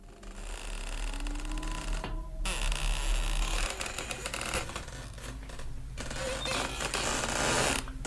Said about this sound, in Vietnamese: nghe thấy tiếng dây thừng cứ kéo cả kéo kẹt, nghiến vào một vật gì.